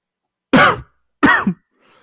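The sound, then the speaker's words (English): Two harsh throat-clearing coughs, short and loud, separated by a brief pause, followed by a faint trailing breath. “Sorry, I've got something in my throat.”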